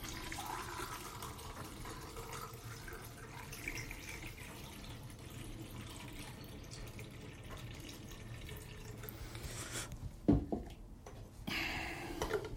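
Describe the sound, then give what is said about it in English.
Running water gives developed photographic film its final rinse: a faint, steady trickling flow that continues throughout, with a brief knock near the end. “It's two washes. And third and final rinse.”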